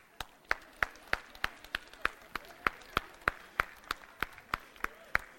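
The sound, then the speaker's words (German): Slow, sparse clapping with about fifteen sharp, evenly spaced claps in steady rhythm, moderately quiet and heard alone without talk, at a spoken storytelling performance. “Applaus.”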